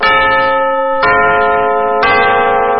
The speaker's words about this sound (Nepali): सहिनो समय सूचक अहिले मध्याह्नको 12 बज्यो